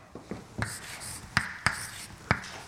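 Writing during a lecture on molecular flux across a membrane: a few faint scratchy strokes followed by several sharper, louder taps spaced irregularly, with no talk.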